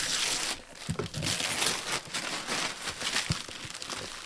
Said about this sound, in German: Da werden Geschenke ausgepackt